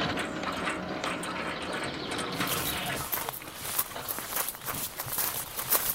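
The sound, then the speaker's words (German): A gate opening to a house in a radio drama: a faint, grinding, ratcheting mechanical sound that gives way after a few seconds to irregular crunching, like footsteps. “Ah, das Tor geht auf. Man hat uns bemerkt.”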